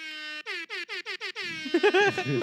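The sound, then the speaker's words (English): Train horn sounding one long blast followed by about six short, rapid honks in an even rhythm, loud and tonal, after which voices are heard talking. “That was a train.”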